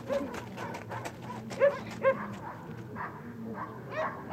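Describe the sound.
A pack of tribal dogs barks in a continuous noisy din, with a few sharper, louder barks standing out in the middle.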